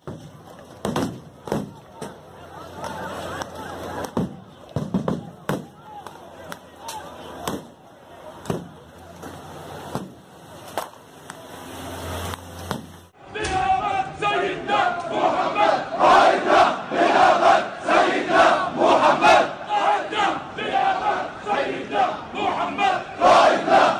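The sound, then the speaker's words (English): A protest crowd shouting near the Temple Mount, where rubber bullets were fired at protesters. Sharp, scattered bursts and shouts come first, then a dense, louder wall of crowd roar and yelling continues to the end. “there has been some protesting in and around the Temple Mount, and then also I think some rubber bullets were fired to put back some of the protesters. But here's a little bit of a montage of that.”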